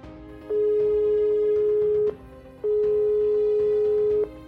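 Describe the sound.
A telephone tone sounds after a call is cut off: two long, steady electronic beeps with a short gap between them.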